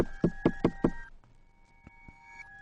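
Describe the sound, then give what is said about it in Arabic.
Four quick, evenly spaced knocks on a bedroom door, loud and sharp, followed by quiet with a faint steady hum underneath. “قبل ما عيني تروح في النوم الباب خبط.”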